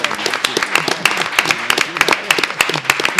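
Scattered audience applause at an academic gathering honoring a colleague, irregular sharp claps coming in a sparse, uneven patter rather than a dense roar.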